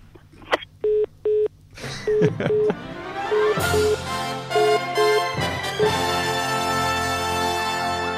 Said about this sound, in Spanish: Ese sonido de colgar el teléfono.